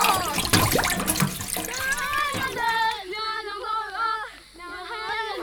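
Flowing water rushes loudly and steadily as a sound effect, then gives way partway through to wavering musical tones over a quieter watery hiss.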